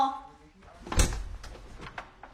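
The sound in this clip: A door being opened by a young girl at home. A voice comes first, then a loud thud near the middle, followed by a few sharp clicks of the handle and latch.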